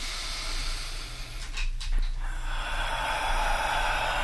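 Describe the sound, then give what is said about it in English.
Deep inhale drawn during a guided heart-centred breathing meditation. It comes as a brief airy rush of breath against a steady background hiss, with no speech. “And one breathes in through the front of the heart, chest area, and the back.”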